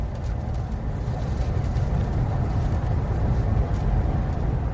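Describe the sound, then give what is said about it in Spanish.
Ambience from inside a moving train: a steady, dense rumble with a rushing hiss over it, holding an even, fairly loud level with no distinct events or voices. “Este fue el diario de Martín, desde el tren, volviendo a casa”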